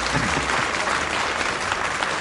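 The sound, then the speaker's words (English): Audience applause at a variety comedy show after a sung number, a dense, steady roar of clapping that holds at an even level throughout with no voices over it. “I don't know whether you're applauding Arthur or hating me.”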